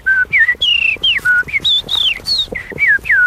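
A person whistles an imitation of a blackbird's song, as done by a champion of bird mimicry: a rapid run of many short, clear, high whistled phrases, several sliding downward, separated by brief gaps and heard alone.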